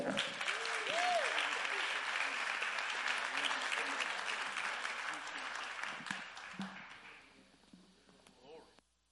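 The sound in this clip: Audience applause welcoming a guest speaker: steady, sustained clapping with a voice calling out over it, slowly fading away toward the end.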